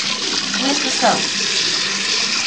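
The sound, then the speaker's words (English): Tap water runs steadily into a sink while someone washes their hands. It makes a continuous bright hiss, with one brief splash partway through. “Oh, you want to wash your hand. Do you? Okay, show us what you do. Where's the soap?”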